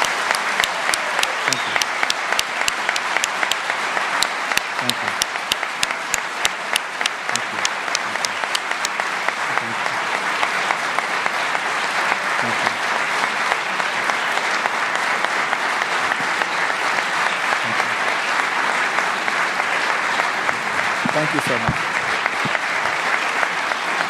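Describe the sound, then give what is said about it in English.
A standing ovation after a talk by a Newsweek International editor: sustained, loud applause from a large audience, dense clapping that carries on evenly for the whole stretch. “To let our radio audience know, we have a standing ovation here.”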